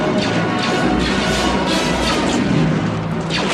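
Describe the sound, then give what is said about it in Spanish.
A door closing, used as a sound effect in a science-fiction radio drama as characters pass through near a spaceship hangar; a loud, dense, sustained noisy rush with crashing thuds throughout, no voices. “Pasan por la puerta mientras se cierra.”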